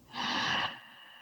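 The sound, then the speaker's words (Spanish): A single deep inhalation during a guided breathing meditation: a soft, breathy rush of air lasting about half a second, then fading into quiet. “Vamos a inhalar muy profundo.”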